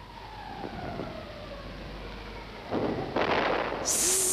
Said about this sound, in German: das war eine Granate. Nein, das war ein Schrapnell.